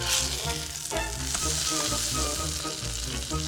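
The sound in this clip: Omelette batter made with milk sizzles as it fries in a pan, a steady, loud crackling hiss that runs unbroken through the whole stretch with no talk over it.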